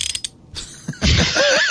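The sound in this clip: A Slide belt ratchet clicks as the belt is tightened: a few light, separate clicks, then a louder burst of rapid ratcheting with a creaky, rasping edge.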